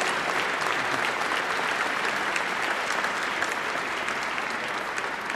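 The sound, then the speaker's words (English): An audience applauds a professor with steady, dense clapping that stays loud and even for about five seconds. “Give her another hand. She's a wonderful, wonderful professor.”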